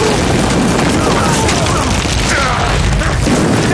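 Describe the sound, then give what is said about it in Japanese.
Artillery shells exploding in a battle, a dense, continuous roar of overlapping blasts and deep rumbling that stays loud throughout with no pauses. “敵を全て爆破させろ。”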